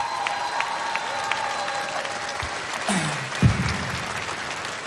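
Audience applause at a music festival: dense, steady clapping from a large crowd that holds at an even level throughout, with a murmur of crowd noise underneath.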